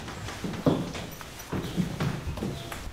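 Footsteps walk upstairs toward a sick girl's bedroom, a few soft, irregular knocking steps on a hard surface over a low, steady background.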